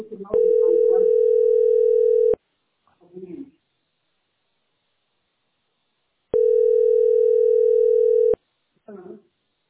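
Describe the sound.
A telephone ringback tone plays while a caller waits for an operator to answer. It comes as two long, steady, mid-pitched beeps of about two seconds each, separated by a long pause, and each beep is followed by a brief snatch of muffled voice.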